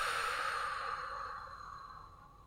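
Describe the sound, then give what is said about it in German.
A long, slow breath out, soft and airy, fading gradually over a couple of seconds. “Nimm einen langen Atemzug und atme lang aus.”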